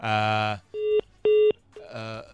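Telephone dialing to connect a caller: two steady keypad beeps of the same pitch, with buzzier electronic tones just before and after them.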